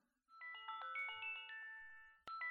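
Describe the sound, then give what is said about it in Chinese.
An alarm goes off as a bright electronic ringtone, a melody of many quick chiming notes that cuts out briefly near the end and then starts again. “哼，闹铃响了，这么快就到点了。”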